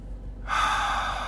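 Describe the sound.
A single deep inhaled breath taken during a breathing and relaxation exercise for tension in the core. It starts suddenly after a brief quiet pause and then holds as a steady, airy rush to the end.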